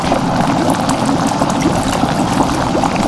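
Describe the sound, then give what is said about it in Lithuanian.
Water boiling in a kettle produces a loud, continuous bubbling and rushing churn with a steady, dense texture throughout and no voices. “tai yra verdančio vandens virdulyje garsas”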